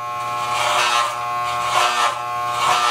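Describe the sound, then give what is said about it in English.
Electric clippers shaving a head in a bathroom: a steady, buzzing motor hum rich in overtones, swelling three times as the blades pass through hair, with no talk. “One time I filmed him shaving his head in the bathroom.”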